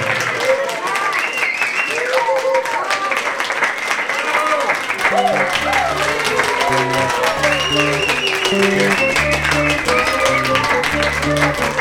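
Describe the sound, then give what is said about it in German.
Applause and clapping from an audience at a market anniversary celebration greet a live band, a steady wash of claps among voices, before the band begins playing with a bouncing bass line. “Applaus für die Löffelpiraten!”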